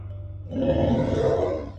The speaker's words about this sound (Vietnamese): Thánh quỷ đau đớn gầm lên